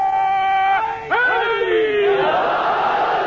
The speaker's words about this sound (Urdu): آخری نعرہ